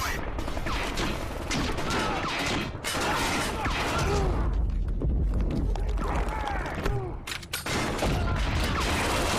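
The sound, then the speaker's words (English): Grenade launcher fire and explosions from a soldier's heavy weapon loadout in a video game: a loud, dense barrage of bursts, blasts and crackling impacts that continues without a break throughout. “I'm also going to pick a heavy weapon loadout that comes with one of my favorite weapons, the grenade launcher.”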